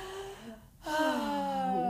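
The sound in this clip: A person draws a deep breath before speaking: a quiet, airy gasp-like intake, then a louder voiced breath.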